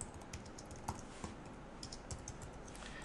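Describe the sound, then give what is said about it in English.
Computer keyboard typing, as text is entered for a web page: a faint, steady patter of quick, irregular key clicks with a few slightly sharper strokes. No voices are heard. “And so I just begin typing away”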